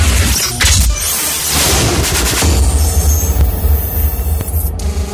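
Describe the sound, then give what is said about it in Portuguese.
Cannon-fire sound effect played during a live DJ show at a beer festival: heavy booming blasts with deep low end and several sharp hits sit on top of a loud, dense, continuous roar. “Toque algo que me lembre o som dos canhões.”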